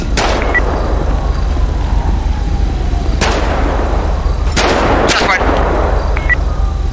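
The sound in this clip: Gunshots in a police video game, a few sharp, loud cracks spread unevenly across a constant noisy background, two of them close together near the end.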